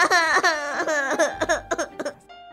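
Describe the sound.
A child crying loudly: a high, wavering wail that breaks into short, choppy sobbing bursts toward the end.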